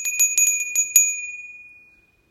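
A small meditation bell rings: several quick, bright, high strikes, then one clear tone that hangs on and slowly fades to silence.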